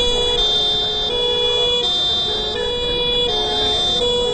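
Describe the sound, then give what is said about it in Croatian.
Sirens of heavy industrial vehicles sound at a workers' protest before the main gate of an aluminium plant. A loud wail alternates between a high and a lower tone in a steady, repeating cycle over constant background noise. “Uz zvuke sirena teških industrijskih vozila te uz transparente, radnici Aluminija”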